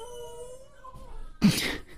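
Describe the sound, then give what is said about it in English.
A dog whines in a faint, thin, drawn-out whimper that fades out. A short, louder noisy burst follows. “That was my dog. She's saying hi.”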